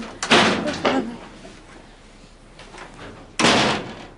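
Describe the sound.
A door is handled and shut: a few loud rattling bangs close together near the start, a quiet stretch, then one sharp heavy thump.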